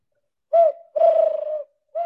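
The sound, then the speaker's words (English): A human voice imitates a pigeon cooing, giving three low, hooting coos: a short first note, a longer drawn-out second, and a third cut off at the end. No other talk is heard. “Let me hear pigeon.”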